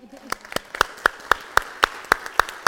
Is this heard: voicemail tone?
no